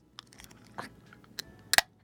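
A can of grape Fanta pops open under a thumb, spraying a little. A few faint clicks lead up to a sharp, loud crack with a brief hiss near the end, then quiet.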